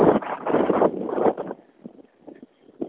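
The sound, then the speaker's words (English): Brisk outdoor wind buffeting a microphone: heavy, rumbling gusts for the first second and a half, then easing to faint, uneven flutter. No one speaks. “Wow, that wind probably sounds terrible. It's quite brisk right at the moment.”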